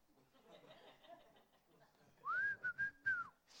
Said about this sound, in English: I went to Netflix and I turned on a TV show that the theme song was a bunch of whistling.